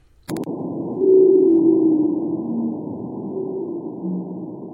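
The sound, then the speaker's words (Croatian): Song of a Chagos pygmy blue whale, a newly identified subspecies population, captured by seafloor nuclear-test detectors in the Indian Ocean: low, droning tonal calls held steadily and continuously after a brief click at the start. “Snimke Chagos Pygmy Blue Whale, pigmejskog plavog hita, napravljene su pomoću detektora nuklearnih bombi smještenih na dnu Indijskog oceana.”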